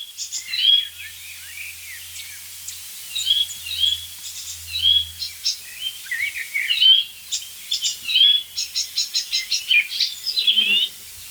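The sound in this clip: Song of a mimicking songbird, a varied stream of high chirps, whistles and rapid trills, ending in quick repeated notes. A faint low hum runs through the first half.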